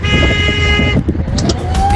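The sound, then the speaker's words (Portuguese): Car horn honking at a honking rally on the Dutra highway: a sustained, bright multi-tone horn blast of about a second, loud over steady road noise, followed by quieter traffic sounds. “Aquela buzinada gostosa, vai!”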